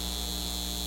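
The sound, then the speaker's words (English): Steady electrical humming from a data center, a constant droning tone with a buzzing edge that holds unchanged through the short moment, with no other sounds. “This is the sound of a data center taking your water and driving up your utility”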